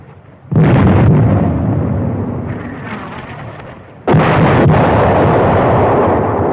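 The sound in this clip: An artillery gun fires shells: two heavy booms a few seconds apart, each a sudden loud blast that trails into a long, rolling rumble.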